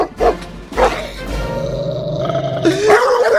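Dog growling and barking from a played recording: a couple of short, sharp barks, then a long, rumbling growl and a louder, rough burst at the end, all loud.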